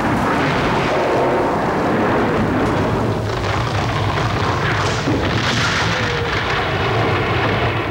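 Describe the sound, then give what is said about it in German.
Lightning strikes through a palace ceiling during a storm with hail, followed by thunder: a dense, continuous low rumble and roar fills the whole clip, with a stronger burst of crackling noise partway through. “Ein Blitz faucht durch die Decke des Palastes, der Donner.”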